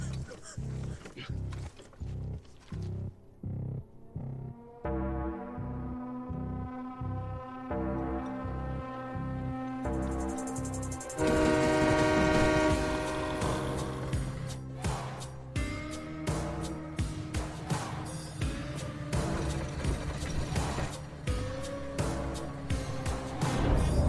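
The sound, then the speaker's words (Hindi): An approaching train sounds its horn: long, sustained harmonic blasts build into a louder, broad rumbling roar that grows fuller toward the end. “Train आ रही है”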